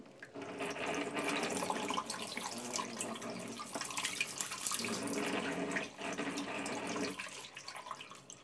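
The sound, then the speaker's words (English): Hot water running from a hotel sink tap while the tap makes odd droning, humming tones over the steady rush of water. The sound is fairly quiet and dips briefly near the end before carrying on. “if you use the hot tap, if you're a bit cold, it sort of makes funny noises at you like this.”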